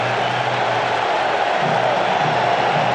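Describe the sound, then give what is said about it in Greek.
A stadium crowd of 65,000 roars during a football match at Gillette Stadium in Massachusetts, a dense, continuous wash of voices that stays loud and even throughout. “Και ξεσηκώνεται και το κοινό. Ο αγώνας εξάγεται στη Μασαχουσέτη, το Gillette Stadium.”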